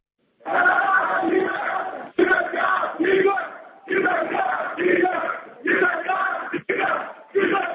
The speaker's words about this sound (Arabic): المشجعون العراقيون في تايلاند احتفلوا بالفوز مع أعضاء المنتخب في مقر إقامته في فندق الشيراتون حتى الساعات الأولى من صباح الثلاثاء.